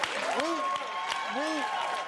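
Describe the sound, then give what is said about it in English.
Audience applause for Dr. Ballard's younger brother, called up from the crowd, forms a steady wash of clapping throughout, with voices and tonal whoops rising over it. “Please give a round of applause to Dr. Ballard's younger brother, Joel.”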